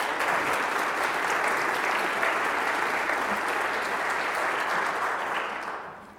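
Applause from an audience at a morning gathering welcomes an itinerant storyteller from Ethiopia with the Mennonite Central Committee. Dense, steady clapping holds for about six seconds, then tapers off at the end.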